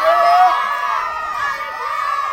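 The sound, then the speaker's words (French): Crowd of students on a beach cheering on a swimmer, with many overlapping shouting and whooping voices, loud and sustained throughout. “Alors vous allez encourager votre copine.”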